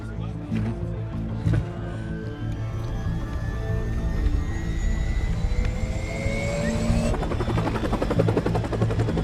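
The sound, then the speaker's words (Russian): Helicopter in flight in a video game, a steady, heavy rotor drone with a layered engine hum and a few thin whining tones that rise slowly in pitch before the sound shifts near the end. “«Альфа» в вертолете.”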